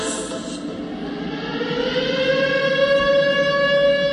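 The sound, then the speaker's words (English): Civil defense-style siren sounding to announce the start of Shabbos: a loud, continuous wail with steady harmonic tones that rise slightly and hold for the whole clip. “That's the siren. Shabbos is coming.”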